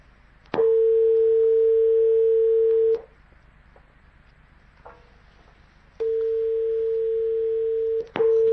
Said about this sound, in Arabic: عفوا، انقطع الاتصال.